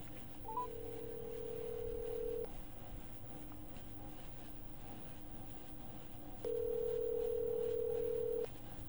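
Telephone tones as a call is dialed and connected during a radio call-in. Two long, steady, moderately loud beeps sit over a constant background hum, separated by a pause of several seconds.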